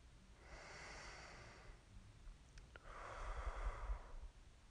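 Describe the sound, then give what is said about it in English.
A slow, deep breath: two long, soft, airy rushes of air, faint and alone, separated by a short pause. “A third deep breath.”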